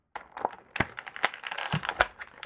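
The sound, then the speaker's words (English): An action figure is pushed back into its plastic blister card packaging, giving a quick, irregular run of many faint clicks, taps and crinkling cracks from the stiff plastic. “I'm putting a guy back into his blister card.”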